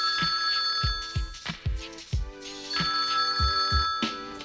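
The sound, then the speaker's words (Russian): A telephone rings in a flat, a steady electronic ringing tone heard over music with a run of deep rhythmic thumps, continuous and fairly loud throughout. “И тут звонок.”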